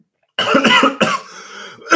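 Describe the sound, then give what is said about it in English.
Coughing after swallowing the wrong way: after a brief silence comes a quick run of harsh coughs, then another sharp cough, a lower drawn-out rasp, and one more cough at the end. “excuse me, I swallowed the wrong way.”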